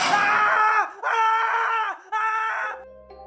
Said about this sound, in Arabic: دخل أرفع واحد فيهم ومعاه كشاف. أول ما دخل سمعناه بيصرخ.